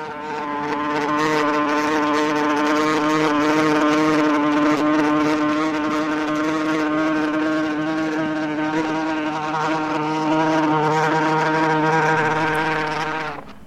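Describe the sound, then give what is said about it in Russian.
A beetle buzzes in a continuous, loud, steady drone that holds a rich, slightly wavering tone without a break for the whole stretch. “Жук, жук, не жужжи, где ты прячешься, скажи.”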